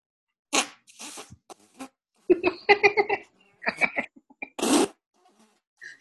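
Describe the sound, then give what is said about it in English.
A voice imitates fart sounds with the mouth, producing several short, sputtering raspberry bursts and squeaky blips separated by brief silences, fairly quiet overall. “Yeah, people are into that now. What, fart sounds?”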